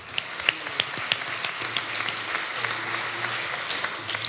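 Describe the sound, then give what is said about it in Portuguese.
Audience applause at a live comedy roast: a sustained wash of clapping with sharp individual claps popping out, holding at a moderate level throughout. “malta, uma salva de palmas.”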